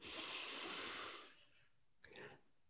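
Two people take a deep breath together on a count of three: a long, loud, airy inhale that hisses for about a second, then fades, followed by a brief, fainter breath.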